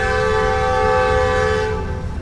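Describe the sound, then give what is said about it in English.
An Amtrak passenger train moves through Southwest Kansas. Its horn holds one loud, sustained chord-like blast for about two seconds over a low rumble of the moving train, thinning slightly at the end. “That's the sound of Amtrak moving through Southwest Kansas on a whistle-stop tour”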